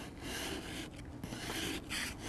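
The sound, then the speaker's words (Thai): Steady rasping scrape of a scraper working off a hardened layer on a car part, a continuous gritty rubbing that stays even in loudness with a few brief lulls and no talk. “ส่วนตรงนี้มันจะแข็งกว่าก็ใช้ขูดออกเนี่ย”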